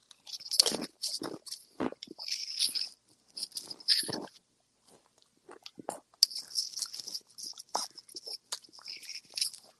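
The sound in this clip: Crunching and chewing of a seaweed snack, with many crisp, crackling bites in irregular bursts, loud and close, with a brief quieter lull midway and no talking.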